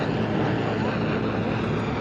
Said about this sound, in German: Der Hubschrauber über uns wirft Gasgranaten ab.